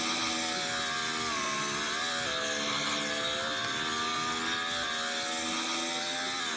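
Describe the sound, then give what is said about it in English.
McLaren Formula One race cars in a racing video game at a Road Antioch grand prix, a loud, steady, high engine whine rich in harmonics, pitch dipping briefly then climbing again, without talk. “But he's got a really fast McLaren in this race.”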